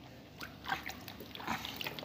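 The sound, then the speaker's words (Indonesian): Water poured over someone during a bath, heard as a couple of soft, faint splashing bursts over a quiet background. “tutup matanya nak disiram air”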